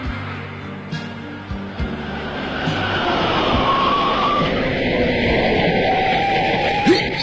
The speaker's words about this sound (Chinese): 车速放慢点。 看来后面这辆车要超过我们。